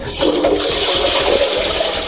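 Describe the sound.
A toilet flush: a loud, continuous rush of swirling water that holds steady throughout, with no voices.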